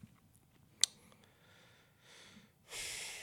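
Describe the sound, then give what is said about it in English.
A deep breath, drawn as a soft, breathy rush of air that swells near the end, after a single sharp click and faint earlier breath noise. No one speaks. “Yeah, that's a deep breath.”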